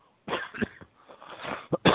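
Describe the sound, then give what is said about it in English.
Harsh, rough coughs break out in a fit of several bursts from a single person. The fit ends with a couple of sharp, loud hacks. “excuse me, I'm sorry about that, folks. I apologize for that. We don't really have a cough button here.”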